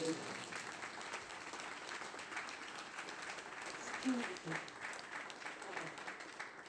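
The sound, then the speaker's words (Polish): An audience applauding during a church sermon, with dense, steady clapping that stays faint throughout while a voice speaks over it. “Oddaj Bogu klaski.”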